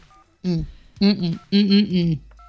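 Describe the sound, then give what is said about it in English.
Telephone dialing tones: a few short, steady electronic beeps open and close the passage, with a louder voice sounding between them. “It's like the dialing.”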